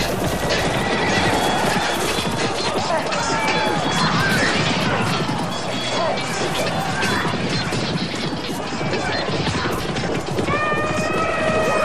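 Horses neigh and gallop in a battle against war elephants: many shrill whinnies rise over a loud, continuous clatter of hooves, mixed with crashing impacts throughout.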